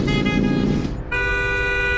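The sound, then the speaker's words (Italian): A car horn honks in two long, loud, steady blasts with a brief break between them, over the low rumble of a moving car. “Ma devi proprio strombazzare come un cretino ogni volta che ti sorpassa?”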